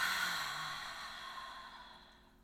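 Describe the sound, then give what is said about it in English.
A soft, breathy exhale, the release of a deep breath through the mouth, starts clearly and then slowly fades to near silence. “Let's take a nice deep breath in through your nose, out your mouth. And release it.”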